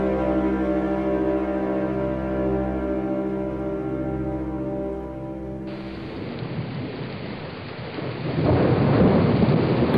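Heavy rain and thunder from a storm with strong wind near a cemetery. A sustained droning tone gives way midway to dense, roaring rainfall, and a louder rumble of thunder swells near the end.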